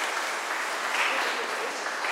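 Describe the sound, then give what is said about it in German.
Applause in a church after a baptism: many hands clapping together in a steady, dense wash that holds an even loudness from start to finish, with no voices rising above it. “Ein großer Applaus für Toni, hat er super gemacht.”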